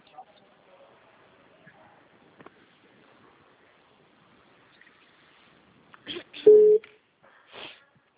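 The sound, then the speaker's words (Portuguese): Telephone tone after a dropped call: near the end, a brief low steady beep stands out from near silence, framed by a few short sharper bursts. “a ligação caiu.”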